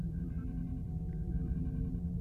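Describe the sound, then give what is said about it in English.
Faint Morse code beeping sounds as short and longer tones at one steady, fairly high pitch in an irregular on-off pattern. A low, continuous rumble sits underneath. “Is that Morse code? Yeah. Yeah, is that Morse code? Yeah, there we go.”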